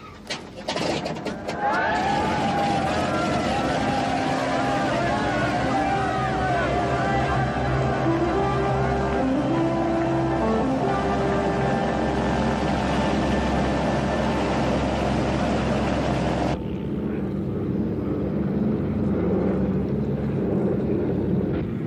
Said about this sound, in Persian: میخواین روشنش کنین؟ درست شد؟ 100% که نه. فشار دو تا از سیلندرها خیلی پایینه، ولی شما را تا چارلوویل میرسونه.